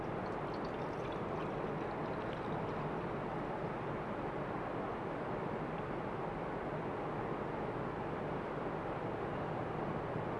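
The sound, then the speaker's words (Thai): Water is poured into a measuring cup in a steady, unbroken rushing splash that runs the whole clip at an even, fairly soft level. “เราเติมน้ำลงไปที่2ถ้วยตวงนะครับ”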